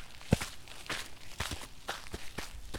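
Hikers' footsteps crunch faintly on a dirt road in the early morning. The steps are soft and irregular, with a sharper thud near the start.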